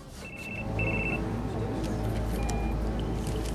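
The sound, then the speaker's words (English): A telephone rings inside a briefcase at a table in a train carriage, giving two short electronic trills and then a fainter third one over a steady low rumble. “At a table in one of the carriages, a man opens his briefcase and answers the phone ringing inside it.”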